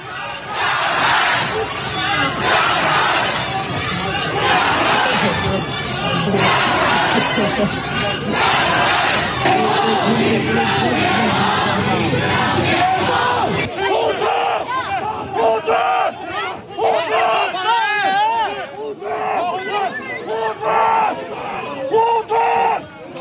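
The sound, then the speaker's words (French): Protesters in Shanghai chant and shout for Xi Jinping's departure in a loud, sustained crowd roar. Midway the chanting gives way to more scattered individual yells over the crowd. “on a entendu des manifestants, comme à Shanghai, ce que l'on va voir, réclamer le départ de Xi Jinping.”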